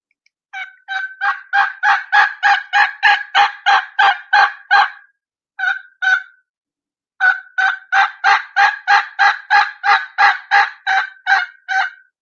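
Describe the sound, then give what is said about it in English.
A person imitates a turkey's transition yelp. Many evenly spaced, rhythmic yelping notes break from a higher front to a lower back end, in a long run, then a short pair, a pause and another long series. “this is called a transition yelp. You'll hear me start it, you'll hear the little high, and then you'll hear just a little bit of high in the front of each note, and you'll hear it break into the back end.”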